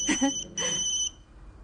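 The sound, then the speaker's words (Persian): A mobile phone rings in two short bursts of bright, high-pitched electronic tone, each about half a second long and separated by a brief gap, before falling quiet. “پدر باید قطع کنم، همراه هم داره زنگ میزنه.”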